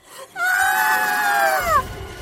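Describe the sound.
Women scream as they jump from a plane with parachutes: one long, high, sustained scream that holds steady and then drops in pitch before cutting off, followed by a low rumbling noise.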